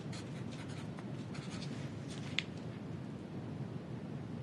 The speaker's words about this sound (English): Do I need to write this down?